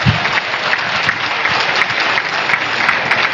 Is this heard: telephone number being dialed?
no